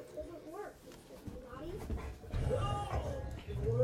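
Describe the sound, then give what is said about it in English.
Dogs bark and whimper in a few high, whining bursts over a steady rumble, with voices mixed in throughout. “There's dogs yelling everywhere. Yeah, there are dogs interfering with things.”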